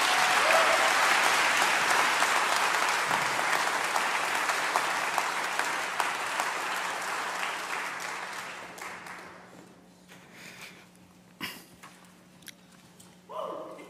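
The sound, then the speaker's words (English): A church audience applauds to welcome a guest preacher: a dense, loud wash of clapping holds steady for about nine seconds, then thins and fades, leaving a few scattered claps and sounds. “join me in giving him a warm welcome to preach God's word to us?”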